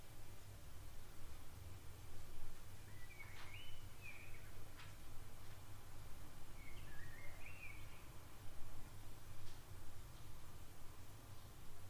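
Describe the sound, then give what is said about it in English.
A pet bird singing, two short, faint warbling phrases over steady low hiss. “let me share with you my birdie's song.”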